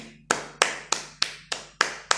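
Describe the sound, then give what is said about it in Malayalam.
Hands clap seven times in an even, steady rhythm, each clap sharp and crisp with a short decay, with no talking. “I clap for her”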